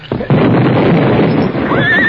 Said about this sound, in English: Better hold the horses. The blast will scare them